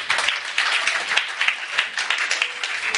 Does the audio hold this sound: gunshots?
no

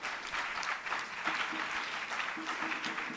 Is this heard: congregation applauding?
yes

